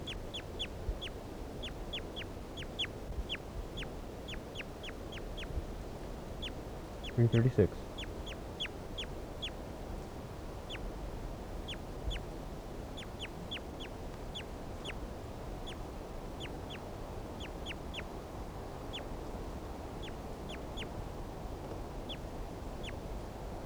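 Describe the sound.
Many short, sharp, high-pitched bird calls repeat irregularly over a steady background hiss, with one brief louder burst partway through.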